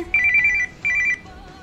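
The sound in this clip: Telephone ringing for an incoming call: two bursts of a trilling electronic ring, each about half a second long, separated by a short gap, fairly loud and heard alone without voices.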